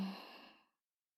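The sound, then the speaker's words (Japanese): A single deep breath slowly exhaled during a guided breathing exercise, heard as a soft, airy sigh that lasts under a second and fades into silence. “大きく息を吸って、少し止めて、ゆっくり吐いて、”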